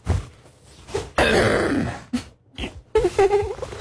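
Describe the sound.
A man gives a big, deliberate throat clear in a long rasping burst, with shorter gruff throaty sounds before and after it.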